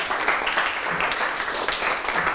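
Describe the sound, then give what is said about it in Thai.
Classmates applaud a student in a classroom after she answers a maths question on interest: a short, continuous patter of clapping at moderate level with no voices over it. “ปรบมือให้ลลนาหน่อยครับ”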